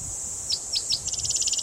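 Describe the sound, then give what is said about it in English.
Cicadas chirping in the background: a thin, steady high-pitched drone with three separate sharp chirps, then a quick run of many rapid chirps, all faint and alone. “A lot of cicadas in the background.”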